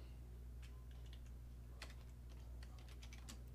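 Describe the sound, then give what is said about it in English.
Soft, scattered keystrokes on a computer keyboard, each click faint and irregularly spaced, over a steady low hum with no voices. “Let me type in the Kanna Korner.”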